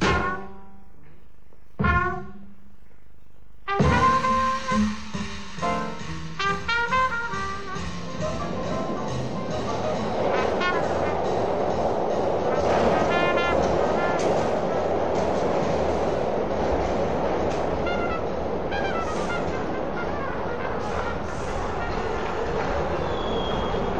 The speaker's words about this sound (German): Die Metro spuckte mich bei Saint-Germain-des-Prés aus.